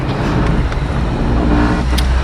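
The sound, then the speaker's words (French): Road and engine drone inside an archaeologists' service car driving at the Bibracte site: a steady, loud, low rumble that continues throughout with no voices. “je me trouve dans la voiture de service”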